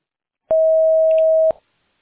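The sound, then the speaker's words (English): A voicemail recording tone sounds as a single steady, mid-pitched electronic beep lasting about a second, clean and alone against silence. “Record your message at the tone.”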